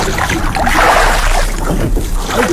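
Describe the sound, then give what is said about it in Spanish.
A boat being rowed, oars churning water in a continuous sloshing, splashing wash with a breezy rush. It is loud and steady throughout, with no distinct separate strokes and no voices. “Rema tu bote. Qué chido se escucha, ¿verdad? Es remando.”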